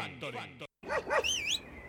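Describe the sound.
Dog barking: a few sharp barks ending in a high, whining yelp, over a steady low background.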